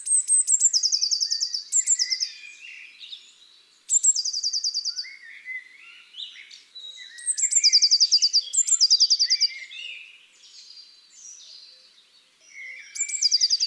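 A blue tit sings its usual simple strophe, a high, crisp, trilling phrase repeated several times with short pauses between bursts, clear and alone.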